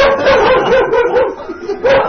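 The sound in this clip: A dog yelps and whines in a continuous, wavering stream of high-pitched cries with a few sharper yips, loud throughout.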